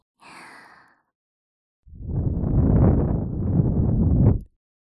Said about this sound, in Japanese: 耳を息で吹かれたり、こんなふうに。